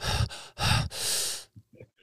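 Heavy breathing picked up close on a microphone: a few loud, rushing breaths in quick succession, the last one long and drawn out, followed by faint soft mouth clicks.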